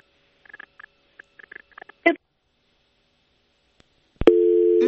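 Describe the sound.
Telephone busy tone after a dropped phone call: a few soft scattered clicks and one sharper knock, then a loud, steady, low tone that starts abruptly and holds to the end.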